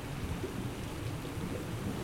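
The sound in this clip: Storm with heavy rain and pounding waves around a lighthouse as a boat sinks in a bay: a dense, unbroken roar of rain over a low rumbling wash, steady and fairly faint throughout, with no distinct separate hits.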